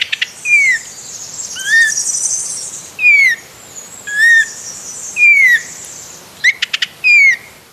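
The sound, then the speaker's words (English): A crested shrike-tit calling in woodland in southwest Western Australia, repeating a clear, loud whistled note that slides downward roughly every second. A high insect-like chirring and a few short clicks run beneath it. “It is the crested shrike tit.”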